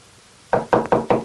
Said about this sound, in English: He stands at the doors for a moment, frowning slightly, then walks down a shadowy hallway to another door. He hesitates, swallowing hard, then knocks.